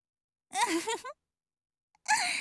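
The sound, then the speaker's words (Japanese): A deep breath let out as a voiced sigh lasting about half a second. After a silent pause, another breath begins and runs to the end. “お上手ですね。ひょっとして深呼吸のプロだったりします？”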